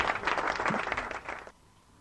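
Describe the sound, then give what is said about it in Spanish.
Applause from a studio audience as a guest is thanked and sent off at the end of a talk: dense, steady clapping that cuts off after about a second and a half, leaving quiet. “Agradecemos entonces con un aplauso, como hacemos siempre, y despedimos a la invitada Bárbara Negri.”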